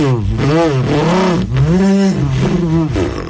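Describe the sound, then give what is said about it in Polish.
Mouth-made car sound effects in beatbox style mimic an overtaking car, indicators and a horn. A loud, continuous voiced engine-like roar swoops up and down in pitch over and over, with the voice imitating the vehicle. “i tam wyprzedza, migacze włącza, klakson i takie różne efekty samochodowe. Chłopaki, czym ten efekt zrobił? Ustami. Ustami, prawda? Jeszcze raz poproszę, to fajne.”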